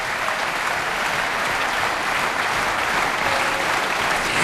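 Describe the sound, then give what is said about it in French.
A standing audience gives a brass and percussion ensemble a standing ovation in a concert hall in Évian, a thick, even roar of clapping that holds steady and loud from start to finish. “Et vous entendez le public de la Grange au Lac d'Évian, le public qui s'est levé, une standing ovation pour ces formidables musiciens.”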